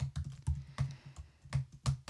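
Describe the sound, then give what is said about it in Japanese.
Quiet typing on a computer keyboard, many quick irregular key clicks falling in short clustered bursts with brief pauses between, heard alone without voices. “お前うるせえな、タイピング。 なんだよお前、なんだよ、 なんなんだよお前、あんまクレッシェンドするやついないんだよタイピングの音。”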